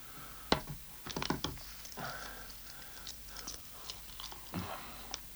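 Someone chewing a hard-boiled egg: soft, irregular bites and wet mouth clicks, with a few sharper snaps among quieter chewing.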